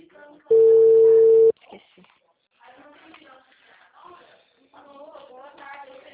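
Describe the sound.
A single steady ringback tone on an outgoing phone call, sounding for about one second, loud and even, followed by quieter stretches where people talk.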